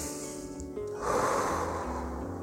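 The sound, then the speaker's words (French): A single long, airy deep breath rushes in partway through, taken during a calming guided breathing exercise over a soft, steady musical drone. “Alors, on va respirer un bon coup.”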